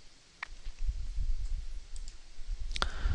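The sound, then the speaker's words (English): Sharp computer mouse clicks while removing an entry on a domain-listing web form: a few brief, dry ticks over a faint, steady low rumble, with no talk. “this is something that my chosen domain Flipper is not using, so I'm going to click on remove.”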